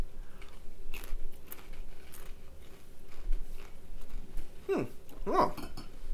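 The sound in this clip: Crunching of a chip dipped in chunky salsa: a few crisp, dry crunches near the end, louder than the quiet background hiss before them.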